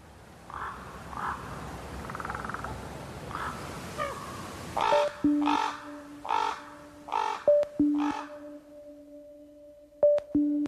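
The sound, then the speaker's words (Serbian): A thick-billed raven, a large 65 cm songbird, gives a series of harsh, hoarse caws in a loose rhythm after a stretch of low background noise, with some faint tonal notes between the calls. “Debelokljuni gavran, dugačak oko 65 cm i težak 1,5 kg, najkrupnija je ptica pevačica, a hrani se svime od stočne balege preko larvi tvrdokrilaca do mesa.”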